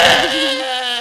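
A single short crying wail, loud at the start, with a wavering pitch that settles into a steadier tone before fading over about one second.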